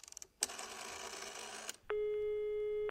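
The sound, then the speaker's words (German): Telephone line during a call to friends in Berlin: a few faint clicks and more than a second of hissing line noise, then a steady, even ringing tone. Everything is quiet, with no voices. “haben wir nochmal in Berlin angerufen bei unseren Freunden, die bei uns auch im Haus wohnten”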